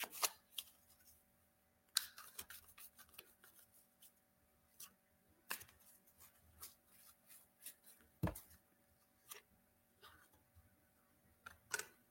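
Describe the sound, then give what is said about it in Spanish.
Faint, irregular snaps and soft rustles of playing cards being shuffled by hand. Many short clicks are scattered unevenly, with quiet gaps between them. “Estoy revolviendo las cartas.”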